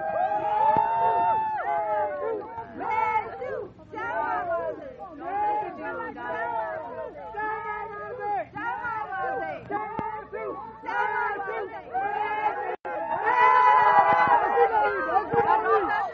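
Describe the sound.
A crowd of Burmese and Americans shouting in welcome outside Blair House as a Myanmar leader arrives: many overlapping raised voices and calls, sustained throughout, swelling louder and more excited near the end.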